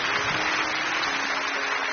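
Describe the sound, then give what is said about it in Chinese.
Audience applause at a live event, thanking an elderly academician: a dense, even patter of many hands that runs unbroken for about two seconds at a steady moderate level, with no talk. “掌声，谢谢郎院士”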